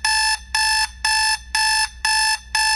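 Loud electronic alarm beeping meant to wake a child for school, in six evenly spaced, bright, harmonic bursts of steady pitch with short silent gaps between them, and no voices.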